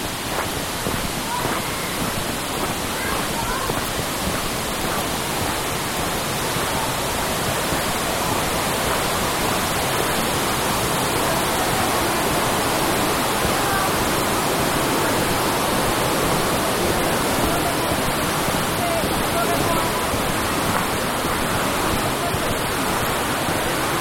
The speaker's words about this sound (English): Just gonna pass by a river here, once under the road, with some guys swimming and stuff.